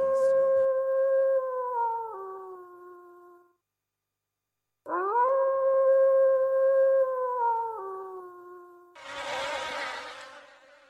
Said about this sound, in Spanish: Muy bonito escuchar el lobo.